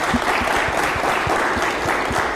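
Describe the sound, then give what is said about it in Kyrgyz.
A studio audience applauds Olympic athletes and their coaches who are seated in the studio, a loud, continuous patter of many hands clapping at an even intensity throughout. “Кантсе дагы ошол алардын олимпиадага аракети үчүн бир кол чаап коелу, э? Түркүлөп кол чаап.”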